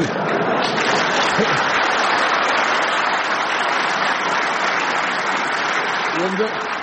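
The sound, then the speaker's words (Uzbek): An audience applauds. The clapping is thick and sustained at an even level throughout, with no break. “Qarsaklarga e'tibor bering. Shavkat Mirziyoyev Ibn Sinoning boshini kesib, Ulug'bekning tanasiga o'rnatib qo'ygani uchun yangrayotgan qarsaklarga e'tibor bering.”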